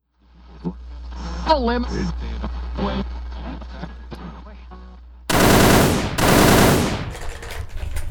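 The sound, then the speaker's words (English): Gunshot sound effects: two long, loud, rapid machine-gun bursts with a ragged tail, after voices talking over a low steady hum. “I heard shots. Oh, were these they? What are you doing? Sound effects.”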